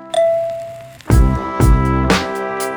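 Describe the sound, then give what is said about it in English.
A computer sound signalling a page turn in a Tron read-along story: a short steady tone, then three bright, ringing chime strikes that sustain and fade. “You will know it is time to turn the page when you hear the computer sound like this.”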